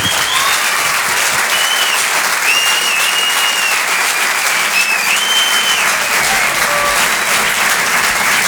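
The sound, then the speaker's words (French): Loud, sustained applause from a comedy club audience, dense steady clapping that holds at an even level for the whole stretch without letting up. “On peut les applaudir très fort.”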